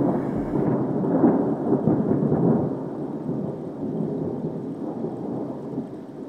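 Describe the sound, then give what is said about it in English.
Thunder rolls in a continuous low rumble lasting several seconds, heavier at first and then easing to a softer, steady murmur, with no voices. “The next time the thunder begins to roll in the sky”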